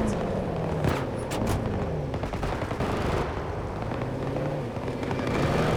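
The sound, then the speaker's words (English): Frag grenade blast in a shooter video game amid gunfire, with sharp bursts and impacts scattered over a constant noisy battle din and a player's voice talking over it. “Oh my god, where did that... Oh, frag grenade.”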